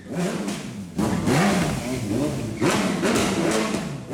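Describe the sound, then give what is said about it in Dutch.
A drag racing car engine on Curaçao revs and accelerates in two strong surges, its tone climbing through each one over a continuous mid-pitched engine drone. “het lijkt op een Formule 1. Ja, inderdaad. Drag race is op Curaçao”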